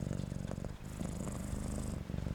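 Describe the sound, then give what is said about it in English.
A rain-soaked cat purrs steadily. The low, rumbling drone has a fast rhythmic pulse and a couple of brief dips where it pauses for breath. “as he looked up at her with his bright green eyes and started to purr”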